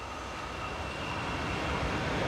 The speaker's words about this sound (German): Auch die Strecke nach Grindelwald befährt die meterspurige Berner Oberlandbahn.